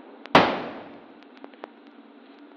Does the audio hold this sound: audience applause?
no

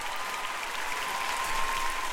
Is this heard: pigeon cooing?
no

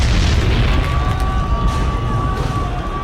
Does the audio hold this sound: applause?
no

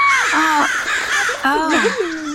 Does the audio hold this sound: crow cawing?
yes

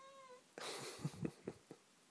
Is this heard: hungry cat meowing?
yes

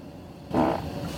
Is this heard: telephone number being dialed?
no

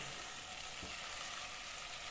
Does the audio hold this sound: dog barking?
no

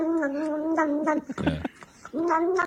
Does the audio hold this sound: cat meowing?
yes

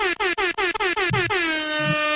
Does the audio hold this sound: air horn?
yes

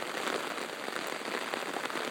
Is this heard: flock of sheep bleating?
no

